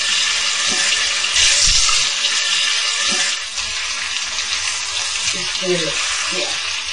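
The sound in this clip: Tofu fries in hot oil in a pan over low heat, giving a loud, steady sizzling hiss that eases slightly partway through.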